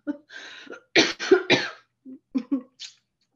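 A person coughs after something goes down the wrong pipe: a sputtering run of several sharp, raspy coughs in quick clusters, loud and then trailing off into smaller hacks, with no other talk.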